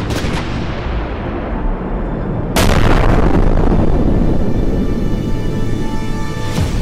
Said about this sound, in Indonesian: sebuah ledakan besar menghantam hampir seluruh pasukan Datuk Danolamo